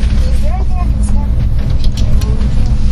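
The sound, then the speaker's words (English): Steady low engine rumble and road noise fill the cabin of a car driving along a road, with faint voices heard at times over the drone. “I'm just driving now.”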